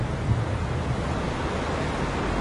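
Stormy wind and heavy waves make a dense, steady roar, loud and unbroken, with the low rumble of surf churning beneath a broad windy hiss.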